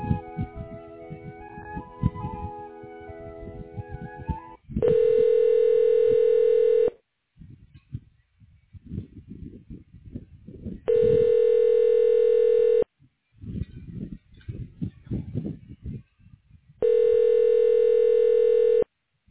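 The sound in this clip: Ringback tone on a telephone call being transferred: a short stretch of melodic music, then three long, steady, buzzy rings of about two seconds each, with softer, irregular sounds filling the gaps between them.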